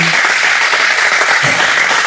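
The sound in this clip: An audience at a German-language conversation event applauds, and the clapping is loud, dense and unbroken from start to finish.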